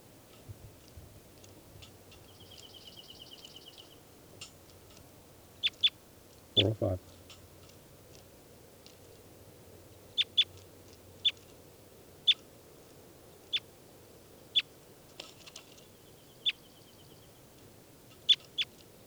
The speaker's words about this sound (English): Start recording now. I'm going to be handling bird 405.